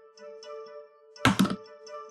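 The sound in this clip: A die rolled across a table during a tabletop role-playing game, a brief clatter of a few hard knocks over quiet background music.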